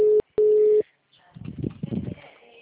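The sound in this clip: Two steady telephone call tones, a short one then a longer one, sound while calling someone. After a pause, a voice speaks on the line.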